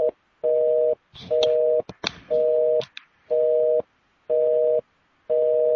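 Telephone busy tone after a dropped call: a repeating beep in regular on-off pulses about once a second, seven bursts in all, with a few clicks and rustling between the middle tones.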